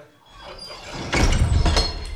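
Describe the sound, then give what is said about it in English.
A metal cage door is opened with a short, rattling clank and scrape that rises suddenly out of a quiet background and lasts about a second. “All right, cage is open. Step inside. Here goes. And let me close you back up.”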